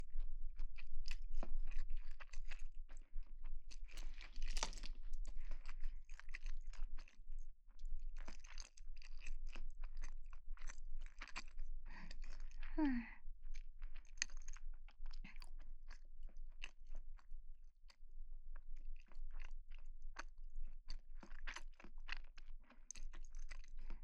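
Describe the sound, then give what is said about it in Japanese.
Crunchy chewing of food at a meal, with many faint bites and crunches at an irregular pace and a low background hum, no talking. “黙って食べる。”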